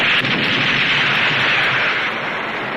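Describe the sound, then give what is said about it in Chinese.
Heavy gunfire from a machine gun fired hard at the enemy in a wartime battle forms a dense, loud, continuous roar with no pauses, and faint sharper cracks are scattered through the din. “指导员不顾伤痛，手托机枪向敌人猛烈射击。”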